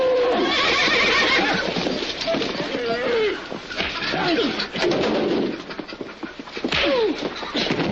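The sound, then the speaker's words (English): Alarmed horses neigh and whinny, a few shrill rising and falling calls breaking through a dense, loud commotion of struggling animals. “Their violence alarms the horses and then the cows. The animals try to break out.”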